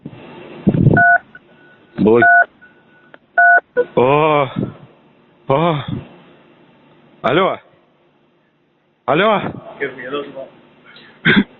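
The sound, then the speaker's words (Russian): Three short beep tones sound on a phone line during a suspected scam call, a prompt before saying a word to block an account. The evenly spaced beeps come roughly a second apart, followed by a voice speaking in bursts with pauses. “После 3 звуковых сигналов озвучиваете слово «блокировка».”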